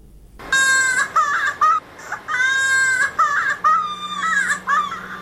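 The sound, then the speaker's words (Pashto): A young child cries loudly in high, strained wails, with many sobbing bursts separated by brief catches of breath, continuing alone to the end. “چې د یو ماشوم په جړه پیلېږي”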